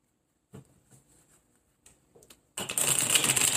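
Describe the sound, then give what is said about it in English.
A deck of cards is shuffled. First come a few soft, scattered taps, then a loud, continuous riffle. “Let me do a quick shuffle. And I'm just going to pull one or two cards just to see if there's anything”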